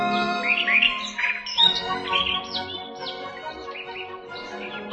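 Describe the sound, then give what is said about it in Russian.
A starling sings in a forest: a varied, continuous run of clear whistles, chirps and rasping, squawky notes that shift quickly in pitch. It is fairly soft and carries on without voices. “Сидят на ветке сойка и дрозд, скворца слушают.”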